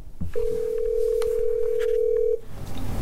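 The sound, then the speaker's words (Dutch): A telephone call to an old number sounds one steady, clear, mid-pitched tone of about two seconds, alone and unbroken, with faint clicks and background noise around it. “belt voor de zekerheid nog even zijn oude nummer”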